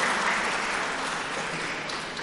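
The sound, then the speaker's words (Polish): Audience applause at a ceremony honouring a state disability rehabilitation fund: dense, steady clapping that holds at an even, fairly loud level for the whole stretch without distinct voices. “Serdeczne brawa dla PFRON-u”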